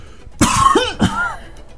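A person's rough, throaty cough mixed with throat clearing: two harsh bursts close together, loud and alone with no talk.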